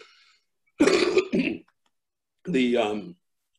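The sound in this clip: A person coughs and clears their throat. Two quick rough bursts come close together, then after a pause a longer, more voiced hack follows.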